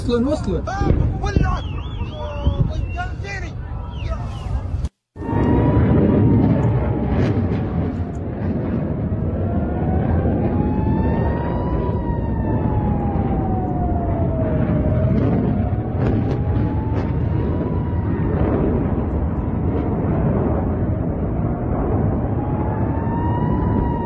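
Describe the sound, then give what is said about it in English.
Hellfire missiles rain down and explode in a dense, continuous rumbling roar, with a wavering tone riding above it, broken once by a brief silence early on. “And particularly pay attention to the speed of the brighter and bigger colored missiles coming down. But let's get this rolling.”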